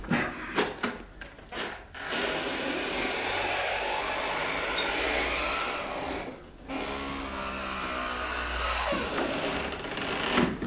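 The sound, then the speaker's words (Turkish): An old door creaking open after its ring is pried loose with a screwdriver: a few clicks at the start, then a long, rough grinding creak that runs through nearly the whole clip at a low level. “Aç bakayım şu kapıyı.”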